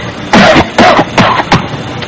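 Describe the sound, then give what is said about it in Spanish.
Forced coughing, put on deliberately to sound like bronchitis rather than a mild cold: four loud, harsh, throaty coughs in a fairly even rhythm, each one short and rasping. “Tengo que toser más duro. Claro, chico. Hombre, para que parezca una bronquitis, mira a ver.”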